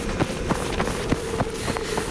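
Children's running footsteps as they dash away outdoors: a quick, regular series of soft thuds at a steady, brisk pace, with no talk over them.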